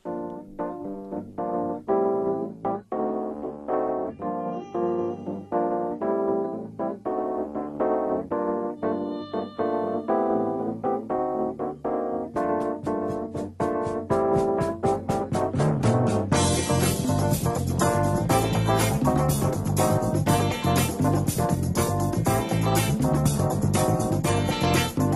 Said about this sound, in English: The music is from the early 70s. It's called Jazz Funk, and it sounds like this.